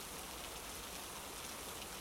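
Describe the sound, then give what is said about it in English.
Rain falls in a soft, continuous hiss of dense patter, faint and even throughout with no voices. “I know I was complaining a second ago, but I like the rain. Makes the world feel quieter.”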